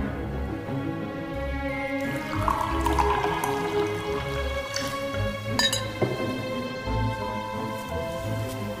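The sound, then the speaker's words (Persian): Sharbat trickles and splashes as it is poured into a goblet, a soft, steady stream with light drips and a faint clink, heard over sustained background tones. “شربت یه جام میریزه برای وروره.”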